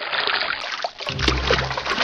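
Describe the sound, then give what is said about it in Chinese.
Water sloshing and splashing as salt-rubbed cow lungs are rinsed and kneaded hard by hand in clean water, like washing clothes; irregular continuous slosh and trickle with a brief lull partway through, then heavier churning. “搓过盐的牛肺用清水冲洗后，还要在热水中焯洗。然后再在清水中像洗衣服那样使劲揉搓，将血管中的血水全部挤出来。”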